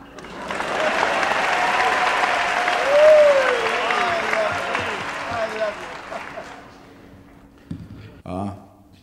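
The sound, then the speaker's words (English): Audience applause welcoming a performer at a talent-spotting show: a broad wash of clapping holds steady for about six seconds, then fades away, and a short burst of voice follows. “And please put your hands together for a very big warm welcome, please, to Raymond Scum.”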